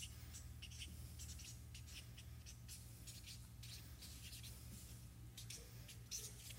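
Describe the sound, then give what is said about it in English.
Someone writes something down, producing a faint, steady scratching of quick strokes that carries on for several seconds. “Don't answer. I'm going to write it down.”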